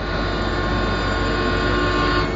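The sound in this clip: A train rumbles steadily in a constant, heavy low-end wash with a faint sustained tonal hum on top. It runs unchanged throughout, and no one speaks.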